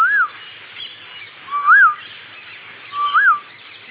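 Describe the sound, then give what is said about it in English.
An Asian koel (kokila) sings three clear whistled notes, evenly spaced. Each note rises and then falls in pitch, and nothing else stands out. “But here is this Kokila. And he makes many, he has five different songs he sings. The first one is,”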